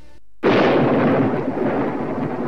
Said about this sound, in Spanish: Vaya tormenta, ¿eh?